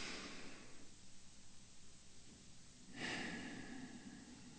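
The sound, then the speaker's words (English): A person takes a slow, deep breath during a guided eyes-closed exercise. Soft airy breathing is followed by a stronger, breathy inhalation, heard alone without talk. “take a nice deep breath. We'll do it together.”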